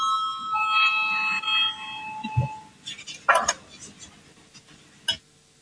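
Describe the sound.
An electric bell rings in a parliamentary chamber to call members to a vote, a sustained tonal ringing for about two seconds, followed by a few short, sharp knocks.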